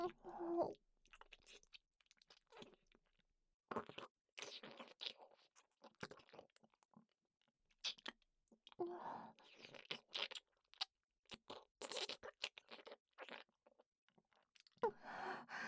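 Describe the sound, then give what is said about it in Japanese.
Intense, wet kissing sounds come as many quiet smacking and slurping bursts. They arrive in irregular clusters, with short pauses of near silence between them. “随分と積極的なキスですわね。”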